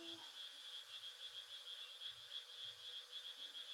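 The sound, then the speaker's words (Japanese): Frogs croaking in a steady chorus, a continuous high pulsing trill with faint, lower croaks scattered beneath it throughout. “カエルが鳴いてございますね。”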